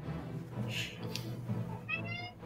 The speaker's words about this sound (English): I heard a cat, though.